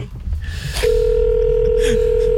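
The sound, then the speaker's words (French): A telephone ringing tone on an international call: after a brief stretch of noise, a single steady tone begins and holds unbroken, fairly loud, to the end. “Ça sonne, on est à l'étranger. Ouais, ça sonne à l'étranger.”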